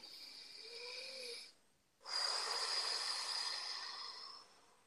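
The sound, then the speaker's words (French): A deep breath taken during a guided affirmation exercise: a soft, airy breath phase, a brief near-silent pause, then a longer and stronger breath phase that slowly fades, all fairly faint. “Alors, une respiration.”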